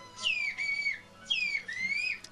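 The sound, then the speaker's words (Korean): Names are whistled in a whistled language as two long, loud, high-pitched phrases. Each slides down, then holds a steady tone before a short upturn, with a brief pause between them. “휘파람 언어로 우리 이름을 다시 한번 부탁드렸습니다.”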